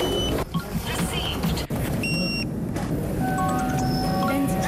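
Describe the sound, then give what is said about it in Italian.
A short electronic chime from a mobile phone confirms a QR code payment in India, its bright tones standing out against steady street traffic, with further thin high tones sounding afterward and voices in the background. “Lo inquadro col cellulare. Pagato. Questo rumore in India si ripete centinaia di milioni di volte al giorno.”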